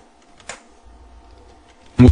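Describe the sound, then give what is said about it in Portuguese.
The Tab key is pressed on a computer keyboard, giving one sharp, short click against a quiet background. “Agora eu vou teclar Tab.”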